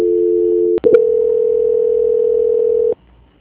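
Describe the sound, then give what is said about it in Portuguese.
A telephone line tone during a call transfer: a steady two-note electronic tone, a brief dropout with clicks, then a single continuous tone that holds for about two seconds before stopping, followed by faint low noise. “Dentro de instantes, você será atendido. Agora foi. Transferência.”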